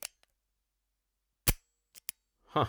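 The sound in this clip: A single sharp, loud gunshot from a loaded handgun cracks out of near silence, followed shortly by two brief, faint clicks.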